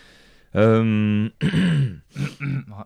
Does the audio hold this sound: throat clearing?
yes